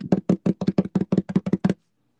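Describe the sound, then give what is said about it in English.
A quick drum roll of many rapid, evenly spaced low knocking taps that runs for under two seconds and then stops, leaving silence. “So let's go ahead and announce the winner for this month's voting episode. Drum roll, please.”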